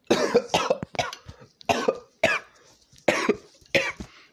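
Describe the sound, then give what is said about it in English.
A choking coughing fit after a piece of meat from spaghetti and meatballs lodges in the back of the throat: harsh, forceful coughs come in uneven bursts with short gaps and some smaller hacks between them. “I had a piece of meat lunge itself in the back of my throat.”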